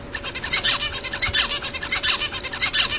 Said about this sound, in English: That's the song of the Australian zebra finch.